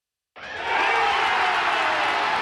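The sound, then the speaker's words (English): Baseball fans at Truist Park cheer the final out of a Braves win over the Philadelphia Phillies: silence, then a roar bursts in and swells into a loud, sustained crowd cheer. “That's the sound of fans at Truist Park celebrating the final out of last night's Braves win against the Philadelphia Phillies.”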